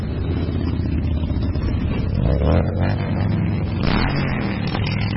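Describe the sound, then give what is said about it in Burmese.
Many motorcycles roar together at the Rolling Thunder rally in Washington, DC. Their engines make a dense, continuous rumble with a few surging swells. “ဆိုင်ကယ်စီးသူ6သိန်းလောက်ဟာမြို့ကိုလှည့်လည်မောင်းနေတာကြောင့်မိုးချိမ့်တန်လို့လဲကြားနေရပါတယ”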